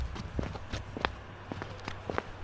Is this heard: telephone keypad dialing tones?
no

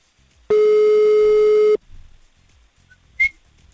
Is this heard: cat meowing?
no

